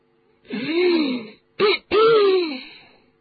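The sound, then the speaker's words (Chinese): A man's coughing and throat clearing, voiced by a person imitating the sound, in three hoarse, harmonic bursts: a long one, a short one, then a longer one that fades out. Nothing else is heard. “就听德斯里姨父又咳了几声”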